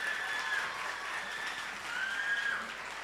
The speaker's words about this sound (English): Please put your hands together for them one more time.